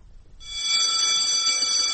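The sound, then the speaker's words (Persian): A school bell rings in one loud, steady, continuous tone that starts abruptly after a brief quiet moment and holds to the end. “صدای زنگ مدرسه شاید برای بسیاری خاطر انگیز باشد”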